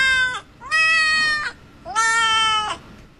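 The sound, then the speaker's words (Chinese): A cat-language translator app plays cat meows: three drawn-out, high, bright meows, the first cut short at the start. They are loud and clear, with no talk. “猫语比我们简洁呀。欢迎收听联谊会，这么多字，它叫三下就解决了。”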